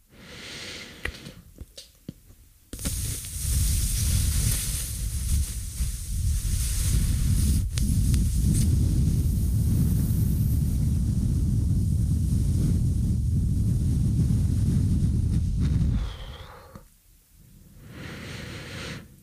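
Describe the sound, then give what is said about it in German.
Air is let out very slowly through puffed-out cheeks during a Qigong breathing exercise: a long, loud, steady breathy rush lasting about thirteen seconds, alone, then fading into quiet. “Ich puste jetzt meine Backen auf und dann lasse ich ganz langsam die Luft wieder raus.”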